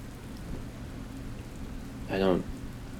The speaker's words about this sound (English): It rained most of the day. It's raining now.